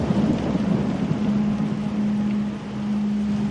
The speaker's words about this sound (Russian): Дождь. А вы любите дождь?